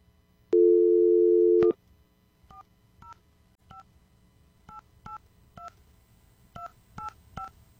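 Telephone keypad dialing as a host calls a contest winner: one long steady tone comes first, then a string of short two-note beeps at an uneven pace, with no voices.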